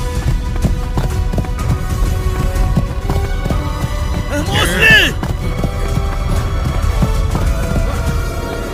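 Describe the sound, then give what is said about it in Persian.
Hooves clip-clop quickly and steadily as a horse runs off, with loud, even beats continuing throughout while people talk over them. “این اسب میره”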